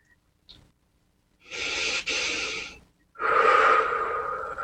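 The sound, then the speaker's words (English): Two long, deep breaths taken during a guided body-awareness relaxation exercise. Each is slow and breathy, lasting over a second, with a faint short sniff before them and no talk. “take a couple of deep breaths here.”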